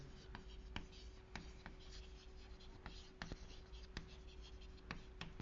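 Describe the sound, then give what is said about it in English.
Handwriting as a long word is written out: a steady, fairly faint scratch of strokes with many short taps spread evenly throughout, and no talk. “I'm going to write out the word superconformal.”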